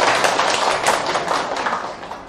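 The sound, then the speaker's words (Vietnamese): Audience applause answering a call for vegetarians to clap: dense, steady crowd clapping that holds strong and then gradually thins and fades. “xin tất cả những người ăn chay hãy cho một tràng vỗ tay thật là lớn để tán dương văn hóa đó.”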